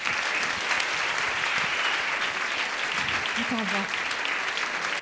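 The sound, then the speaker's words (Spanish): Steady, dense applause from an audience at a storytelling performance, continuous and loud throughout, with a brief voice rising over it near the end. “Un fuerte aplauso para Ana García Castellanos.”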